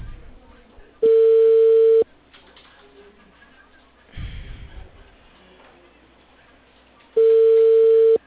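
An outgoing call rings on the line as two steady one-second tones about six seconds apart, heard over faint background noise and a short rumble between them.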